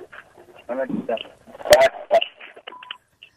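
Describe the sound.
Telephone dialing tones during a radio call-in show, a short run of quick electronic beeps that comes near the end, after stretches of talking voices.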